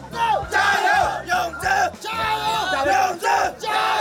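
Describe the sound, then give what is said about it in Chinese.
A crowd of supporters cheers on the Chenzhou team at a competition, shouting encouragement in repeated loud bursts of chant-like yelling with short breaks between them. “我和我弟弟是来给我爸爸加油的，我想要我爸考第一。 郴州加油！”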